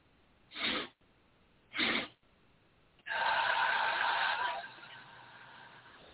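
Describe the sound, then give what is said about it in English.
Two quick sniffs in through the nose, then a long, steady exhale out through the mouth, a breathing exercise demonstrated alone without talk; the outbreath is breathy and fades gently at its end. “It's going to be two sips of a breath through your nose and a long exhale through your mouth. And it sounds like this.”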